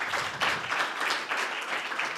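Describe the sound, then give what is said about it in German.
Audience applause on a German television game show, moderately faint clapping that surges in regular pulses, giving a roughly rhythmic, beat-like pattern. “Großen Applaus nochmal für euch beide.”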